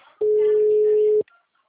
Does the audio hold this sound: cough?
no

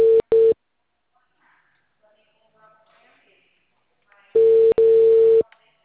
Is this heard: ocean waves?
no

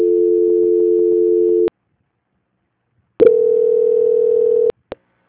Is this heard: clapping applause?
no

